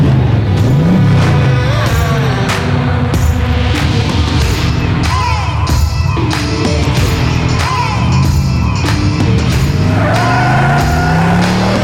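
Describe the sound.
Car engine revving loudly in a dense, continuous roar, its pitch swelling and dropping several times over the whole stretch, with other noisy sounds mixed in.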